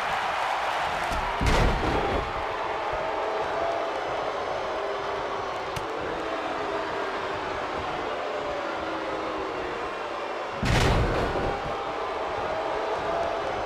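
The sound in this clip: Heavy slams on a wrestling ring mat during a match between The Miz and Vader, including a neckbreaker: two loud, booming thuds well apart, over a steady rushing background noise.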